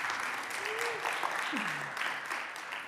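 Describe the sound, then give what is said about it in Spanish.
A church audience claps during a morning service, a dense, steady applause that continues throughout while a voice speaks over it. “Dale un aplauso al Señor en esta mañana para ver si no están durmiendo.”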